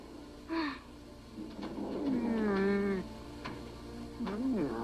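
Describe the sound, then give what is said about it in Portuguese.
A polar bear cub gives three bleat-like whimpering cries, a short one, then a longer wavering wail, then a final quick whine, over a low background hum. “É um filhote de urso polar. Calma, não vamos te machucar.”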